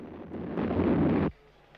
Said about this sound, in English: Back on Earth, the space shuttle blasts off.